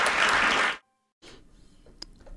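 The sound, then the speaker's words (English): Brief burst of dense applause that cuts off abruptly after under a second, leaving near silence and then a low, faint background with a single small click. “And she gets some applause for that announcement.”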